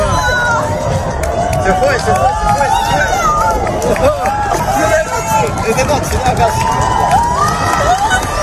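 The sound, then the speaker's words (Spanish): A large outdoor crowd cheers and shouts during a solar eclipse, a loud, continuous wash of overlapping voices, whoops and excited calls that stays steady throughout. “Aplausos, incluso lágrimas, el asombro de la gente ante una belleza inquietante, ante un fenómeno realmente hipnótico. Escuchábamos los gritos de la gente en la Torre de Hércules, en La Coruña”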